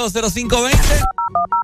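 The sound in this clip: A rapid run of short touch-tone beeps as a telephone number is dialed, coming right after a stretch of a man talking.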